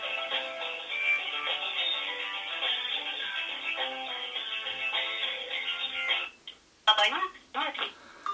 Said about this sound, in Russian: Сейчас будем, так сказать, слушать телефонный разговор, что и как он будет, как себя вести, в общем, он будет.